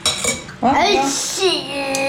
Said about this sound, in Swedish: Jag blandar nu.